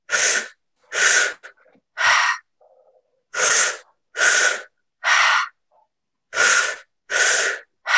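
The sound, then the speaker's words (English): Loud breathing through the mouth in a belly-then-chest-then-release exercise: three sets of three sharp, airy breaths, each set separated by a brief pause. “So you breathe into your belly and then into your chest and then release.”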